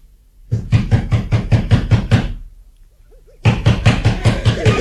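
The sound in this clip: Knocking on the door of a poor village house: a rapid, even run of hard knocks, a pause, then a second quick run of knocks.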